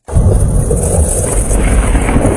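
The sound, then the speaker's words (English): A Saskatchewan storm system with funnel clouds, large hail and strong winds roars as a loud, steady rush of wind buffeting with a deep rumble that never lets up. “That's the sound of a Saskatchewan storm system that brought funnel clouds, large hail, and winds strong enough to nearly knock over a grain bin.”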